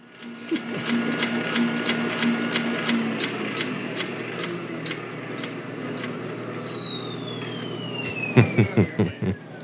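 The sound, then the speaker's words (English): A fax machine receives a file with steady electronic tones and rhythmic mechanical clicking. A long whistle glides downward over it, and a burst of sharper clacks comes near the end. “And that's when they fax over the actual file on Albert Rennick, used car salesman from Chicago. Let's have a listen to that machine, shall we?”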